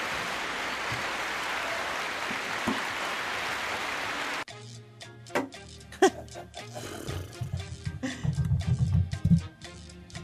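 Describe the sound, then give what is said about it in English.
An audience cheers and applauds loudly after a live performance by a blind musician. The roar lasts about four seconds and then cuts off abruptly to quieter, sparser sounds. “Audience goes crazy. Nicely done.”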